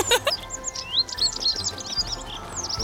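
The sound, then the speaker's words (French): Birds chirp busily while feeding on a festive meal in front of a door, their bright, high tweets overlapping in a near-continuous chatter over a faint low rumble. “Bon appétit, chers oiseaux. Et n'en laissez pas une miette, n'est-ce pas?”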